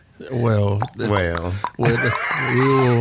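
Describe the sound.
A person's voice imitates a mule's bray in three loud, strained bursts. Each burst is rich in harmonics with wavering, gliding pitch, and short breaks separate them.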